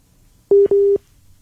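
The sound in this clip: A WhatsApp call connecting tone sounds as two steady, mid-pitched electronic beeps, a short one followed at once by a slightly longer one, clear and alone against quiet.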